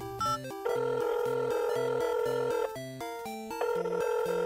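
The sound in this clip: An electronic telephone ringtone sounds during a phone call, a steady run of bright synthetic tones that step up and down in pitch in a repeating melodic pattern, moderately loud with no voices.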